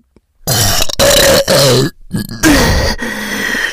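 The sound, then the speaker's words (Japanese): A run of loud, deep, drawn-out burps in quick succession, a few of them rough and grunting, from a person whose burping will not stop. “ねえ、やば。体内で変な化学反応起こってる。ゲップ止まんね。”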